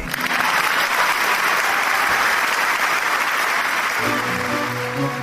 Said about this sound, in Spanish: vamos a inaugurar una nueva sección del programa, que es aplaudir al entrevistado.